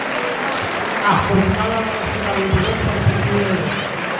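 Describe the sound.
Applause rises at a cattle auction as bidding climbs to 6,000 euros. The steady clatter of clapping runs the whole time beneath an auctioneer's rapid, continuous calling.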